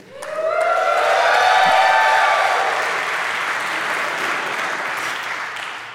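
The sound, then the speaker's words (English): Dense applause from a crowd rises quickly to a loud, steady roar of clapping, holds for several seconds, then slowly thins and fades toward the end. “You're milking it, Adam. I wanted to wait until your applause was fully gone.”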